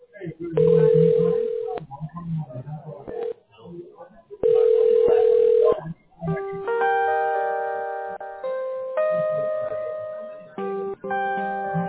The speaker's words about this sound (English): Now, you'll hear me dialing.